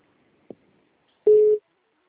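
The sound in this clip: An incoming call shows up as a short electronic phone beep, a single steady mid-pitched tone lasting about a third of a second. A faint click comes just before it, and no one speaks.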